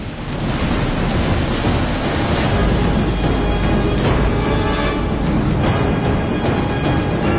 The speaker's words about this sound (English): The tidal wave hits New York, rolling over the docks and dwarfing the buildings. The rain lashes down.